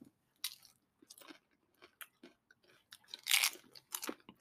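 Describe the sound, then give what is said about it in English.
Crunchy chewing on cheese snacks: crisp bites and mastication come in irregular bursts, mostly faint with a couple of louder crunches toward the end, and no talking. “Let me try one of these. Oh, wow. Let me try one. These are delicious.”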